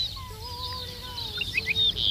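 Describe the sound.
A ricotí lark singing its titutí call: thin, drawn-out whistled notes over a soft outdoor hiss, then a few brief, higher chirps that grow louder toward the end.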